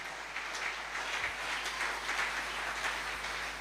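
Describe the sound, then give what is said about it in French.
Congregation applauding during a church service, a steady, fairly faint wash of many hands clapping that holds evenly throughout. “Acclame d'abord pour le Seigneur.”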